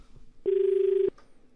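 A telephone ring signals an incoming call to a farmers' radio phone-in. It is a single steady, mid-pitched electronic tone lasting well under a second, heard alone against a quiet background.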